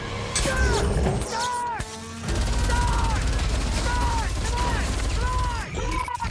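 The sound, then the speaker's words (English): Film gunfire from a damaged Terminator T-600 robot spinning round and firing indiscriminately, heard as loud, dense bursts of shots mixed with repeated swooping, whooshing tones and heavy low rumble. “Kyle leaps to his feet as the damaged T-600 spins round, firing indiscriminately.”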